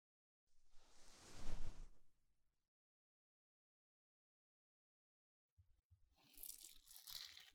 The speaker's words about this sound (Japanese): それでは、目の上にタオルをかけさせていただきますね。失礼します。